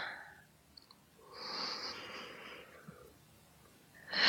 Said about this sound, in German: Magst du einmal tief durchatmen? Genau, ganz tief in den Bauch einatmen.